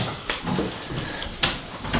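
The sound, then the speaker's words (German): A door is closed with a soft knock and a sharper bump against a rustling, noisy background, with no voices during the sound. “Mal die Tür zumachen? Können wir machen, ja. Hallo. Soll ich mal zumachen?”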